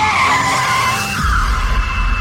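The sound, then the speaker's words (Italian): A car engine roars on the road with a high squealing, skidding tone riding over it, and a heavier low rumble takes over midway, loud and continuous throughout. “Brum, brum, brum, il motore che ruggisce. Brum, brum, brum, per strada fa così. Brum, brum, brum, la macchina.”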